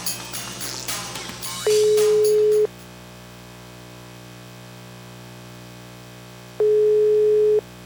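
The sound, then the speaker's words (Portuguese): A telephone ringback tone sounds while a call is placed again: two long, steady, mid-pitched beeps of about one second each, separated by roughly four seconds of quiet line, with a brief burst of clattery noise before the first. “Vamos ligar de novo.”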